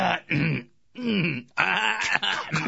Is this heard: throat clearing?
yes